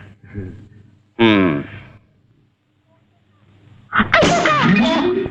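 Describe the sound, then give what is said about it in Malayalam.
A loud, sharp sneeze: a harsh, noisy burst that lingers for about a second, with voiced sounds earlier and a quiet gap before it. “തന്റെ ഒടുക്കത്തെ ഒരു തുമ്മല്, ഇങ്ങനെ തുമ്മിയാ തന്റെ തലകറിച്ചു പോടൂ.”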